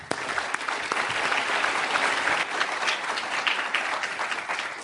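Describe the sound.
Applause from a lecture audience at the LSE welcoming a guest speaker to a public talk on the euro; dense, even clapping holds steady and loud through the whole stretch with no voices over it.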